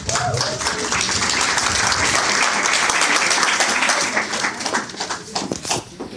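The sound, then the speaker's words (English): An audience applauds a keynote speaker at an Edcamp education event. The clapping is dense and steady, then thins into scattered claps toward the end. “Turn it over to EdTrex Rewind for our Edcamp keynote. Let's give him a hand.”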